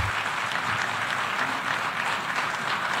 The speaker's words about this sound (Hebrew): ראש הממשלה זוכה למחיאות כפיים בעולם.